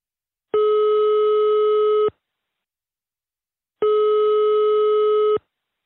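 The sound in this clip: Telephone ringing tone while placing a call: two long, steady, buzzy tones of equal length separated by a silent gap, with no voices.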